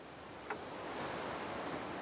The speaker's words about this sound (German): das Meeresrauschen hier im Hintergrund, dabei dann arbeiten zu dürfen.